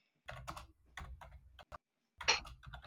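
Typing on a computer keyboard while jotting down a note: short, quiet bursts of key clicks in irregular clusters with brief pauses between them.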